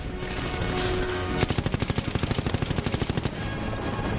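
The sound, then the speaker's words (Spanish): Rapid automatic gunfire from a helicopter firing on an assault gunship in a science-fiction film battle: a long burst of many quick, evenly spaced shots over a dense, roaring wash of noise, with no speech. “La nave de asalto dispara misiles contra Jake que los esquiva. Un helicóptero dispara contra la nave de asalto.”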